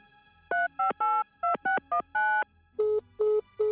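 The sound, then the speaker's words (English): A telephone number is dialed on a keypad. Quick two-tone key beeps come in an uneven rhythm, some short and some held longer, followed by three lower, evenly spaced tones. “The number you have dialed cannot be completed at this time. Please hang up and try again later.”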